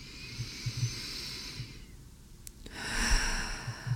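Deep, slow breathing during a guided meditation: a long, soft, airy inhalation, a brief pause, then a hissing exhalation, all fairly quiet with no talking over it.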